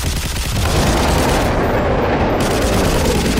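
Gunfire sound effect from an audio drama, a dense, loud and unbroken rattle of shots with no clear gaps between them, heard alone without voices.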